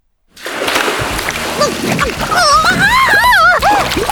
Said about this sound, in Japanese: 名探偵がお湯の中に沈められてるわ。